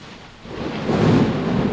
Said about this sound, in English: if the mic didn't get that, I'd be surprised. That's a gigantic lightning.